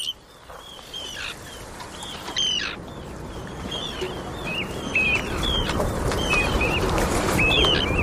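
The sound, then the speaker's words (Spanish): Arctic tern calls: many sharp, high chirping cries repeated at irregular intervals over a steady rushing background noise that grows slightly louder. “Pues este es el charrán ártico”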